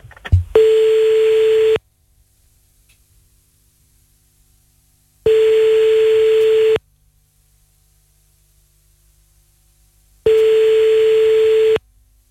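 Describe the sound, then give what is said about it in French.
Ringback tone on an outgoing telephone call being placed: three steady mid-pitched tones, each about a second and a half long, separated by long silences, after a brief click at the start. “Allez bah c'est parti, on y va, on appelle”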